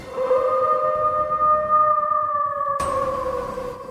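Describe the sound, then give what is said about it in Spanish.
Werewolf howl, a long sustained tonal cry with layered harmonics held nearly level and drifting slightly downward, with a harsh noisy burst swelling in near its close. “el hombre del futuro alza la cabeza hacia la faz del planeta Tierra y aúlla con una fuerza capaz de romper los preceptos del vacío.”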